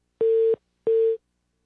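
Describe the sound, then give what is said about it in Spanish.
A telephone tone after a dropped call: two short, steady, mid-pitched beeps with a brief gap between them, loud and clean against silence. “se nos fue la llamada”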